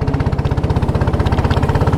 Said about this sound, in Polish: Trochę wiosłujemy wiosłami, a teraz odpalamy silnik i ruszamy w drogę